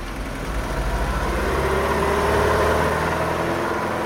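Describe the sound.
A small, fast car drives off: its engine is a dense, steady rumble with broad rushing noise, swelling slightly partway through and easing toward the end, with no talk.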